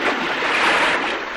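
Water splashes in a pond as people jump in and play during a swimming lesson, a dense, steady rushing wash with no voices heard.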